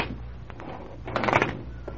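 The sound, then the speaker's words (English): A window blind is drawn open with a faint, brief rattling slide that peaks in the middle, against quiet background. “Here, let me draw the blind.”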